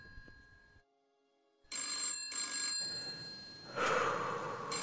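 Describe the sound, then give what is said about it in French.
A telephone rings upstairs: two short bursts of trilling ringing with a brief gap, over a noisy background that grows louder afterward, with no speech. “Est-ce qu'il y a un téléphone qui sonne Vous entendez le téléphone qui sonne à l'étage”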